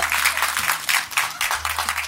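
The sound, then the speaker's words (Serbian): An audience claps on request from an actor. The brief, dense patter of many hands stays fairly even in level across the whole moment. “Ko bi meni sada aplaudirao? I publika potvrđuje.”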